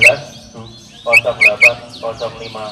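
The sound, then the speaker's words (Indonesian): A white-rumped shama (murai batu) sings: a quick run of bright, high whistled notes with sharp upward sweeps, mixed with lower buzzy chatter between the phrases. “Murai batu A nomor gandangan”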